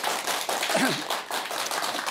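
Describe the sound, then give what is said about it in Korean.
An audience applauds, a dense patter of many hands clapping at an even level, with a brief faint voice-like tone mixed in. “박혜진 작가님께서 좋은 말씀해서 여러분 큰 박수 부탁드리겠습니다.”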